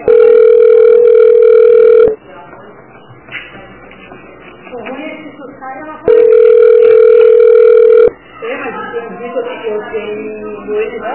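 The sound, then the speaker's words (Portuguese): Ringback tone while a call to a dental specialty clinic waits to be answered. Two long, steady rings of about two seconds each come roughly six seconds apart, and a voice speaks between and after them. “Aguarde para ser atendido.”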